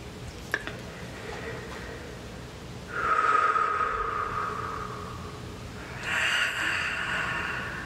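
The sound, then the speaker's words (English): Deep breathing during a guided meditation: a couple of long, airy breaths swell out of a quiet hiss, each held as a soft, breathy rush. “breathe, allow the expansion again.”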